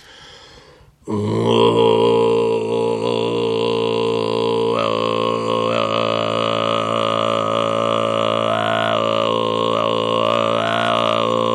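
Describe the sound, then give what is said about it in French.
A deep, low-register throat-singing drone in the 'grave' style sets in after a second of near silence. It holds as one steady, buzzing tone for about ten seconds, with a rich stack of overtones that shift slightly in colour. “Et l'autre approche, dite grave, c'est Hadrira. Ça sonne comme ça.”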